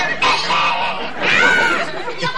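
A goose that has escaped its pen honks twice, each call a loud, harsh, drawn-out nasal blare with a brief pause between them.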